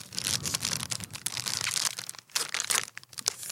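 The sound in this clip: Tearing and crinkling of an Oreo cookie package being ripped open: a loud, continuous crackly rustle of plastic wrapper with a brief lull near the end.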